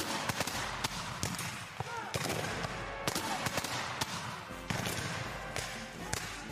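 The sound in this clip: Musket volley fired by Civil War reenactors in a company drill, heard as many sharp, cracking reports scattered throughout, mixed with shouted commands and voices.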